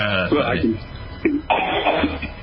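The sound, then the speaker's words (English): A woman lets out a few short, harsh coughs, each with a throaty voiced edge, in quick separate bursts. “she's even coughing about it”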